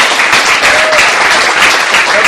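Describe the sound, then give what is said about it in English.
A short, loud burst of dense audience applause for members of Occupy the Farm at a gathering, steady and full for about two seconds. “Go ahead, give them a round of applause.”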